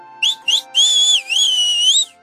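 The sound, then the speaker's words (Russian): A loud, shrill whistle, made as a squirrel whistling with all its strength: two short chirps followed by a long, high, wavering tone that dips and rises a couple of times before cutting off. “Белка свистнула, что есть сил, так, что котенок даже прикрыл ушки лапками. Свист оборвался”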